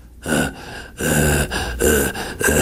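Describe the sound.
A voice imitates snorting, laboured breathing with a run of harsh, raspy gasping breaths in an uneven rhythm, loud and alone.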